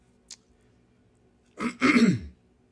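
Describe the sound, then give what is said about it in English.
Someone clears their throat during a talk on a Buddhist sutra. A faint brief click comes first, then a rough, rasping clearing in two quick pushes, with no speech. “I apologize, my throat. I have to keep clearing it.”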